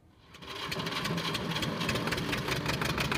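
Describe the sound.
A diesel generator powering a grain-sieving mill fades in and runs at a steady rattling drone with a fast, even pulse, constant and alone.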